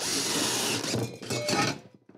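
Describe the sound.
A power drill bores holes in wood with a high, buzzing whir that runs steadily, then breaks into a few short bursts before stopping near the end.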